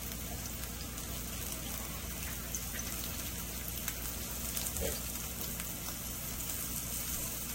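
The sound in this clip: Spicy sausage browning in a pan gives a faint, steady sizzle and crackle that runs evenly throughout with no voices over it.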